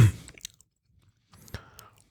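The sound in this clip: Gin-and-tonic flavoured fruit gum being chewed, a few faint moist clicks and soft bites separated by long quiet gaps.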